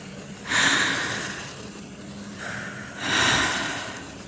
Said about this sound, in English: And then we close our eyes and take a deep breath.